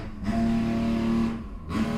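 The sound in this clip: A vehicle with Monster Energy drink Moto Jam branding drives by, a loud steady engine drone with a strong low hum that dips briefly and then swells again.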